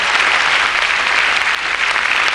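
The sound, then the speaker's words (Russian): An audience greets a speaker coming on stage with thunderous applause: dense, steady clapping that runs unbroken from start to finish. “Спасибо. Я немножко стесняюсь таких аплодисментов, когда я выхожу, таких бурных”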